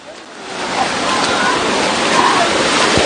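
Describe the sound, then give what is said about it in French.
A sea wave breaks around someone wading in the water, a loud broad rush of churning surf that swells and holds steady to the end. “Voilà, la vague.”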